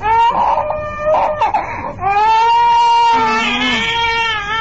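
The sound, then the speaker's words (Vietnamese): A young child cries for its mother in high, wavering wails, breaking into sobbing bursts and then drawing out longer, sustained cries. “Đứa nhỏ ngó người đàn bà và ngó dớt giác trong nhà rồi khóc mà kêu má nữa.”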